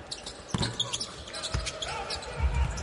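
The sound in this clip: A basketball dribbled during a game: a few dull thumps of the ball on the court under a commentator talking in French, with crowd noise behind.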